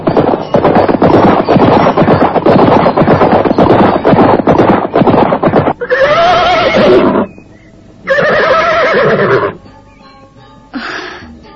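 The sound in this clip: Two horses galloping across a meadow on a cool morning: about six seconds of dense, rapid drumming hoofbeats, followed by three loud, shrill whinnies separated by short pauses.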